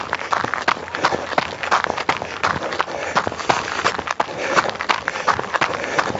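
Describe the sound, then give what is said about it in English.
A person runs with quick, steady footsteps: many rapid, even impacts in a continuous rhythm with no pauses. “As you can hear, I'm running.”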